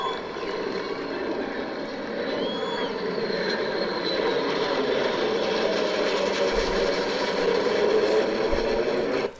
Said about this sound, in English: That was during the 4th of July message by the president where a B-2 bomber flew over the Capitol. And here's a flyover.